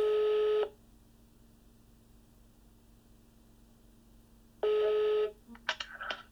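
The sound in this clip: Telephone call tones as a line is dialed: two long, even electronic tones separated by a quiet gap of a few seconds, followed by a short cluster of brief blips and clicks.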